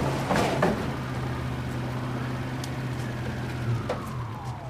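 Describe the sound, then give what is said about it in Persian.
Paykan pickup truck arriving with a crowd of children riding in the back: a steady low engine drone holds throughout, with a few faint clatters near the start. “یک پیکان وانت که عقب اون کلی بچه نشستن وارد میشه.”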